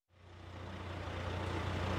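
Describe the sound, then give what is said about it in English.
Low truck engine rumble in a traffic jam of cars and trucks outside Toulouse in summer 1971, including a 100-foot-long flatbed truck. The deep drone fades in quickly, then holds steady and slightly grows. “outside Toulouse, there's chaos. The traffic's backed up for miles. Frustrated motorists beep the horns of their Renaults as a 100-foot-long flatbed truck”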